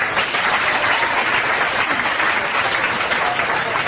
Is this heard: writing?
no